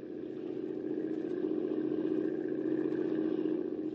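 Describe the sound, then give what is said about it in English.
A boat motor runs on a river in a steady, unbroken mid-pitched drone that holds an even level throughout, with no voices over it. “Better shut off the motor”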